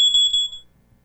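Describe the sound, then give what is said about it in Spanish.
A smoke detector alarm sounds a single shrill, high-pitched beep that holds steady for about half a second and then cuts off, leaving near silence. “Todo esto son puras alarmas. Alarmas que nos indican que algo está pasando, que algo no está bien, y sobre todo esa última que escuchamos,”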